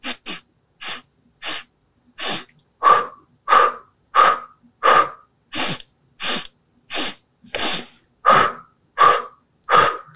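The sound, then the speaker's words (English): Pulse breathing in rapid, evenly spaced bursts: sharp, short nasal inhales alternating with forceful mouth exhales, each a loud breathy puff separated by brief silence, repeated many times with no talk. “It's an inhale in through the nose, four short ones. And then we're going to do four exhales out through the mouth.”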